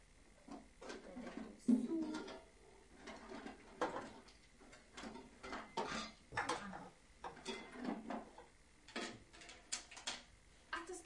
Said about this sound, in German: Ein Topf? Ja. Gibst du mir den auch? Den können wir nachher auf den Backofen stellen, ne?